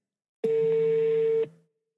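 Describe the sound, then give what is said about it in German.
A single steady telephone tone, held for about a second and then cut off, as someone dials a call. It is clear and unbroken, with no voices. “Ich rufe Marcel an.”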